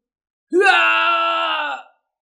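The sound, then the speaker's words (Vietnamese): A man's long, loud scream, used as a dramatic effect for a man whose body is being shattered. It is one sustained, strained cry that rises quickly at the onset, holds steady for over a second and then cuts off. “Diệp Hàm thét dài, lại một lần nữa bị đánh nát người”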